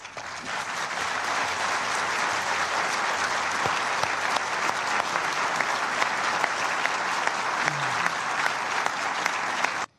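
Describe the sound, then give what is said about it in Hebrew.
Dense, sustained applause fills a UN Security Council meeting right after 14 members vote in favour of a draft resolution. It stays at an even, loud level for about ten seconds, then stops abruptly. “אלה מחיאות הכפיים מיד לאחר ש-14 חברי המועצה הצביעו בעד הצעת החלטה.”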